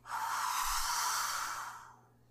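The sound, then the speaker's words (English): A person blows out one long, soft breath, imitating breath blown into the nostrils. The breathy hiss lasts about two seconds, then fades to quiet. “he then breathes into his nostrils”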